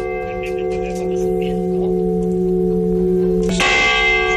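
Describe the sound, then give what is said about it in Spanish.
Restored parish church bells of Viscarrués ring in a loud, sustained metallic drone with many overtones. A fresh, brighter strike cuts in near the end. “queremos ponerte el de las campanas restauradas de la iglesia parroquial de Viscarrués, que sonarán dentro de una fiesta organizada para el próximo sábado. Nos han dejado un trocito del sonido que tienen para que las puedas escuchar.”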